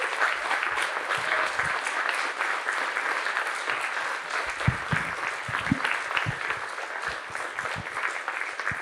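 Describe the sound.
An audience applauds to welcome a speaker to the stage, steady, dense clapping that holds at an even level for about nine seconds.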